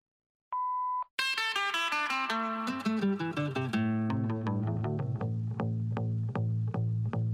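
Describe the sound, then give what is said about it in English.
A voicemail beep sounds once, a short, steady, clear mid-pitched tone that stops abruptly. Music with bright, layered plucked notes and a pulsing beat starts right after it. “Hello, no one is available to take your call. Please leave a message after the tone.”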